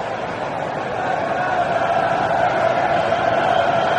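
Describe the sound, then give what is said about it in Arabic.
English football fans roar in the stadium during England's match against Norway, a dense, continuous crowd din that swells slightly after the first second and then holds steady. “صوات الجماهير الانجليزيه، الصخب الموجود في ملعب المباراه”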